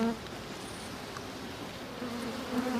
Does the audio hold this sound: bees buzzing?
yes

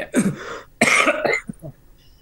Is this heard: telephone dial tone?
no

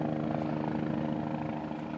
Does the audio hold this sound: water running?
no

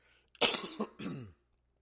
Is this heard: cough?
yes

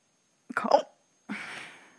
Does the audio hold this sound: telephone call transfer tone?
no

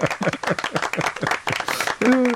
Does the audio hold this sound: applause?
yes

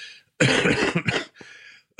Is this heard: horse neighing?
no

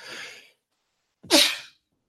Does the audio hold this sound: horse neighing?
no

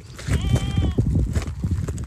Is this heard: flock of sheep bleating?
yes

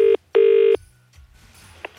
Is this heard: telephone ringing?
yes

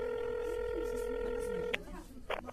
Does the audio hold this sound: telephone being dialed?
yes

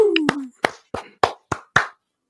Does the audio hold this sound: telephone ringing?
no

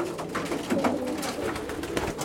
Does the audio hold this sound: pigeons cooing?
yes

